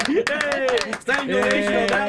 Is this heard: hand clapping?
yes